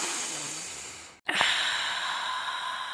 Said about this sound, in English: sit comfortably, calm your mind, a very deep inhalation. So we're going to inhale